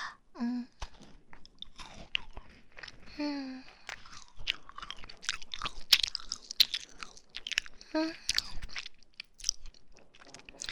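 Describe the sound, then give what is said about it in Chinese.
Crunchy chewing and biting of food, irregular bursts of crisp mastication separated by short pauses, with a few brief murmured vocal sounds in between. “为了防止你吃的太快，就我吃一口。啊，那我先吃了。”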